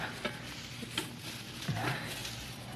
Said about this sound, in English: the kind that make a lot of smoke when they burn. Hey, yeah, plenty on these bushes right outside the window here. Now, I'll just stuff them in the stove.